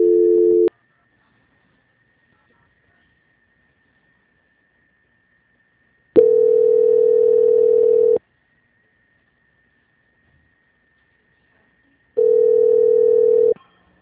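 Telephone line tone during a call transfer: three steady, single-pitch tone bursts separated by long silences, the middle one about two seconds long, with a faint constant high hum running beneath throughout.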